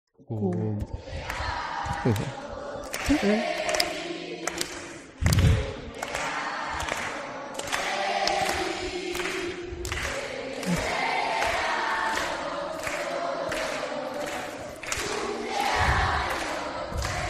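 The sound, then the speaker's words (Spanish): Children sing Happy Birthday together to the president of the Diputación Provincial de Ciudad Real. Many young voices make a loud, continuous chorus with a few dull thumps. “Chicos, ¿queréis que le cantemos su cumpleaños feliz al presidente de la Diputación? Hoy es su cumpleaños. Venga, no le vamos a preguntar cuántos, pero es su cumpleaños. Venga, se lo cantamos.”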